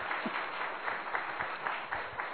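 Audience clapping at a Hindi spiritual discourse, a muffled, even patter of many hands that stays steady throughout, with no talking over it.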